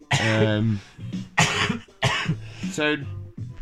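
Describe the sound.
Harsh, throaty coughing from someone whose throat is sore after a hit from a pipe: several rough, voiced hacking bursts in quick succession with brief gaps between them.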